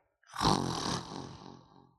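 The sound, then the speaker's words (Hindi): A human voice imitates a lion's roar: one rough, throaty growl that bursts in loudly and then slowly tapers off over under two seconds, with no other sounds. “फिर शेर की आवाज़ आई, फिर हिरन और तेज भागा, शेर आवाज़ निकाले जा रहा है।”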